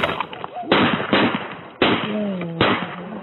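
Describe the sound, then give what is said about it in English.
Gunshots from a police officer's weapon during a struggle after a taser was used: five sharp, loud cracks at uneven intervals over about three seconds, each with a short ringing decay. “Shots fired!”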